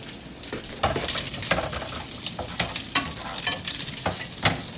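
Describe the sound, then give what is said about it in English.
Bacon sizzles as it fries in oil in a pan: a steady, bright crackle broken by several sharper scrapes and clinks of a utensil stirring against the pan. No voices. “bacon's coming out nice. I'm just getting started on the egg here.”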